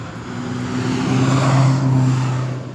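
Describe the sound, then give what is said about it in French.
A Porsche rally car's engine drones as it arrives on a regularity stage of a road rally course. Steady low tones swell to a peak midway, then ease off slightly. “On a encore des véhicules qui arrivent, hein, une belle Porsche”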